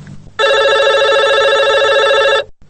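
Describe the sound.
A telephone rings for an incoming call to a radio show: one loud, bright electronic trill lasting about two seconds, then it cuts off.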